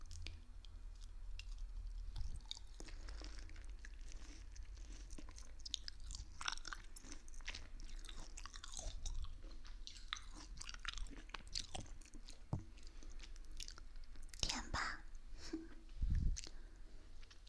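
Someone chews sweet fruit from a box given as a gift, with many soft, squishy, crunchy bites and mouth sounds in a quiet, uneven rhythm.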